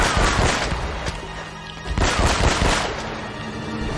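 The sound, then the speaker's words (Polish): Video game gunfire crackles in dense, loud bursts that run almost continuously, with heavy impacts at the start and again near the middle. “Mam jeszcze jeden nabój taki dobry. Tu jest. O kurde. Zmień tę broń.”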